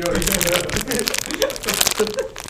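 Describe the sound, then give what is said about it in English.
Crinkly plastic wrapper of a pack of Swedish Fish candy being struggled open, with a dense run of rustling, crackling crinkles going on nearly nonstop under people talking. “I'm trying to open this pack of Swedish fish.”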